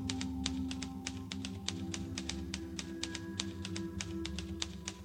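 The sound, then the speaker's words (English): Typing on a keyboard: many sharp, crisp key clicks in a quick, irregular rhythm over a steady low hum. “I can type 50 words a minute with only 300 errors. I'm trained and certified. 50 words a minute.”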